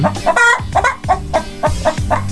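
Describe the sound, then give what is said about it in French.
Hens clucking in an open farmyard behind a house, with many loud, rhythmic clucks and short throaty calls repeating steadily throughout and no talking. “Vous les reconnaissez, c'est facile, ce sont des poules.”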